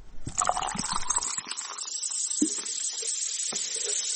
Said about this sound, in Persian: این صدای آشنا که بعید است بعد از شنیدنش در یک روز گرم تابستان هوس نوشابه نکنید، برای تبلیغات نوشابه‌های مختلف استفاده می‌شود.